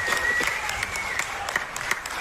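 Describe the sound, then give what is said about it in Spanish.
An audience applauds musicians at a live music event, producing a dense, continuous wash of clapping that holds a steady level throughout, with no clear voices over it. “ya les pedí un aplauso a la batería”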